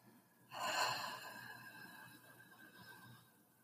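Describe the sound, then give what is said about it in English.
A deep breath is exhaled through an open mouth as a single breathy rush that starts abruptly and slowly fades over about three seconds, with faint steady tones underneath. “Take a deep breath. Inhale, feeling your belly expand. Notice your spine long and the shoulders drop. Open your mouth and exhale.”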